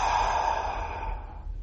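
A deep breath is released after being held during a guided breathing exercise: one long, breathy exhale that starts strong and slowly fades over under two seconds.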